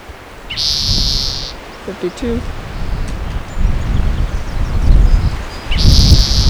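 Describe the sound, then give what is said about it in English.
Gusty wind buffets outdoors as a low, fluctuating rumble that swells and eases throughout, strongest toward the end. A brief, high tonal whistle sounds near the start and again at the close. “Really windy.”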